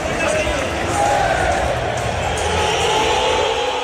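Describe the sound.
Atlético de Madrid fans at the Metropolitano greet Julián Álvarez during a 2-2 draw with Villarreal, a loud, dense crowd roar of many voices that holds steady for the whole stretch.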